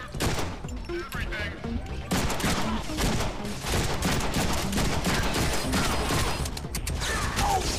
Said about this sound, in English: Just shoot him! How the hell do you fools keep missing?